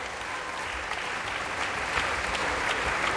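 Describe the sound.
A concert audience applauds as the choir, orchestra and soloists return to the stage once more. The clapping is even, dense and sustained, with no break in the ovation.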